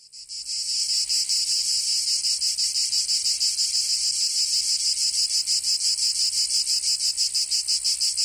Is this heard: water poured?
no